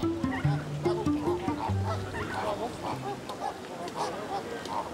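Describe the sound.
Nesting flamingos, with females brooding on their eggs, give many short, nasal, goose-like honks. The calls overlap in a busy cluster at first, then continue more sparsely over a murmuring background.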